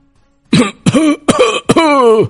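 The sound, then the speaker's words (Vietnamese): Dry coughing from soldiers with a cold in a snowy gorge, four hoarse, voiced coughs in quick succession, loud and alone. “đã có không ít binh sĩ nhiễm phong hàn bắt đầu ho khan”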